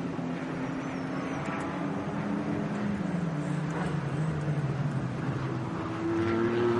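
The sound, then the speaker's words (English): A BMW M4 GT3 race car engine during a race gives a steady, loud drone of layered harmonic tones. The pitch sags through the middle, and a brighter, higher tone comes in near the end. “That's the FK Performance BMW M4 GT3 that has shown very decent, comfortable pace this weekend so far.”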